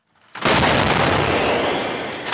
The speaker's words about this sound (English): This artillery is firing rounds with a range of around 20 kilometers or 12 and a half miles.